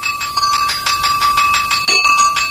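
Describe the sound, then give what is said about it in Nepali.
A school bell rings loudly at the end of a class period, a steady bright tone pulsing with rapid repeated strikes, broken briefly near the end before it resumes, with no voices. “आज त period सकिएको पनि थाहै भएन, कति छिटो घन्टी बज्यो।”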